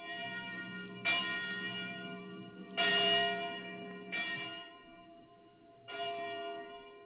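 Church bell rung by hand at a parish church, sounding several separate strokes at an uneven pace, each a bright metallic clang whose tone rings on and fades before the next strike.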